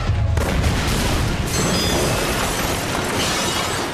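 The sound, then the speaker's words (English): A missile is fired from a control panel and explodes. The sound is a loud, dense roaring blast that fills the whole clip and stays steady before easing slightly at the end, with no voices. “Control panel, fire missile.”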